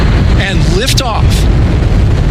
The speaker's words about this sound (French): 4, 3, 2, 1, booster ignition.